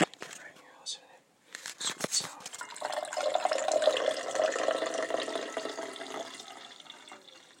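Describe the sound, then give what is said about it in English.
Freshly brewed coffee pours into a cup in a steady, hissing trickle that lasts about three seconds, with a few sharp handling knocks before it. “So I will pour this coffee that was just brewed before we left.”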